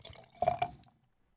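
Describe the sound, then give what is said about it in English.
Budweiser beer is poured into a liquid mix that is then shaken: a brief, faint splash and trickle lasting under a second, followed by quiet. “I'll just have to shake it around. I'm going to add a little more. It smells good. I'm going to add a little more of the Budweiser.”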